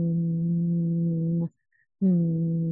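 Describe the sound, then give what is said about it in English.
A person hums a steady, low, even tone as a relaxation exercise. The hum stops for a brief silence, then resumes at the same pitch. “If we are with people and we can't sing, we can hum. Humming is very, very beneficial. So you can go like,”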